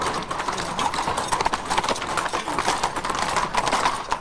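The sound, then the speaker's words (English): Hooves clip-clop steadily as several men on horseback ride past through a village, a dense, continuous patter of overlapping hoofbeats at an even, brisk rhythm. “Several men on horseback ride past.”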